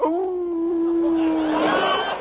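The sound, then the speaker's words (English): A dog howls in one long, steady, mid-pitched wail that holds for about two seconds and grows slightly louder toward the end, with no talk over it. “Now, what in the devil are you howling about, Lionel?”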